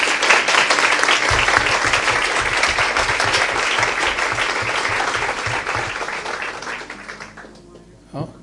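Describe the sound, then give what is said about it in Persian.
An audience claps in dense, continuous applause that holds steady for several seconds, then gradually fades away to near silence. “باز دست بزنیم.”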